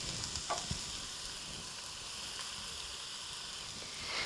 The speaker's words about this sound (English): And now we're adding the garlic.